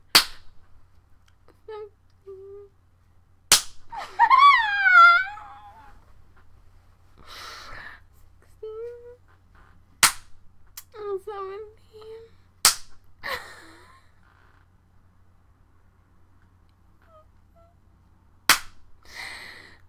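Sharp spanking slaps: a few loud, isolated cracks spaced several seconds apart, with quieter squeaky, breathy sounds between them.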